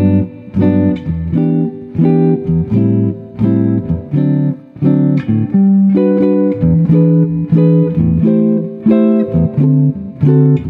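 Jazz seventh chords cycle through a I-vi-ii-V progression in G major: G major 7, E minor 7, A minor 7 and D7. Many full chords are struck in a steady, repeating rhythm with no voices.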